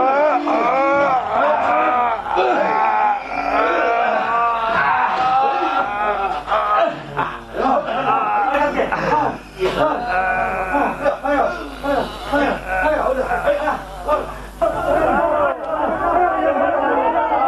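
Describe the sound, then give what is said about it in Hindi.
A crowd shouts slogans, with loud, raised voices chanting together in repeated bursts. The chanting carries on for many seconds with short dips between the calls. “अरे अब ये नारे क्यों लगने लगे साहब?”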